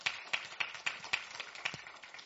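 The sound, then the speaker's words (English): Rhythmic hand clapping from a church audience giving thanks: a steady run of sharp, evenly spaced claps in unison. “Would you give the Lord a hand clap of thanks?”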